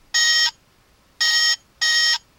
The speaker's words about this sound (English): that was the sound that the communicators would make when it meant, somebody's calling them. It's kind of like their cell phone ring